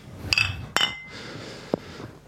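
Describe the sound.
Glasses clink together in a toast, a few bright, ringing taps spaced apart over a quiet background.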